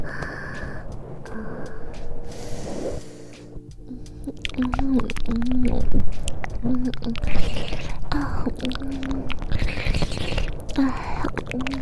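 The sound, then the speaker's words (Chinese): Food being chewed, heard as a busy run of wet mouth clicks, smacks and squishes that starts softly and grows louder after a few seconds, with brief voiced murmurs mixed in. “一看就好吃，应该不介意小姨吃一吃吧？”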